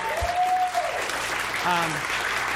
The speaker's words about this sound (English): Give her a round of applause.